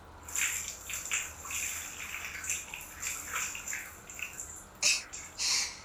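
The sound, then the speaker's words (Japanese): Water is poured and splashed while someone's back is washed, soft sloshing bursts and trickles rising and falling in uneven waves, with two sharper splashes near the end and no voices. “まだお背中流しの途中です。ちゃんとお背中最後まで綺麗にお洗濯させてくださいな。”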